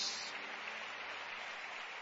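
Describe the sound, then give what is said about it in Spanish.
An audience applauds during a church service, a faint, steady wash of clapping that holds evenly from start to finish. “Dale un aplauso al Rey de Reyes y Señor de Señores.”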